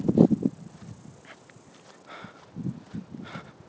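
Footsteps walking outdoors on a hillside path, irregular crunching and scuffing steps of moderate loudness, some heavier than others, with no talking.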